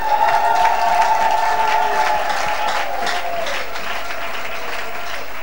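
A church audience applauds and cheers in a loud, dense wash of clapping. A sustained high vocal cheer rides over it, and the clapping eases off slightly toward the end.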